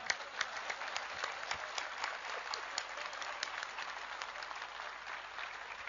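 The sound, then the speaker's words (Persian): Audience clapping during a spoken talk: a dense, steady patter of many hands that stays even and fairly faint for the whole clip, with no voices on top. “هر کی از دست زنش راضیه قشنگ کف بزنه”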